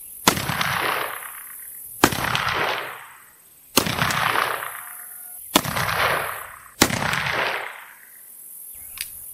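Rifle shots ring out in a steampunk-style setting: five loud, sharp cracks spaced roughly one to two seconds apart, each trailing a long ringing decay, then a shorter, fainter sixth bang.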